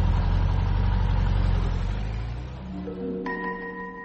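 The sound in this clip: A car engine rumbles low and heavy, then fades away as the car drives off.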